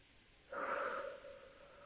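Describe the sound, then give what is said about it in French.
A slow, airy breath during a calm guided breathing exercise, drawn in through the nose and let out through the mouth. One soft, fairly faint breath swells and then trails off, with no talking. “J'inspire tranquillement par le nez et j'expire lentement par la bouche.”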